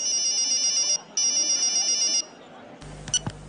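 A mobile phone ringing in a shop at closing time, a bright, high electronic ringtone in two repeated bursts with a short gap, then cutting off and leaving a few faint clicks and knocks.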